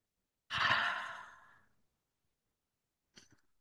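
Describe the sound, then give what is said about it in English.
A deep breath is drawn slowly and fades away over about a second. A brief, faint breath follows a moment later, and there is no talking. “And so let's go ahead and take 5 deep breaths. We're going to inhale.”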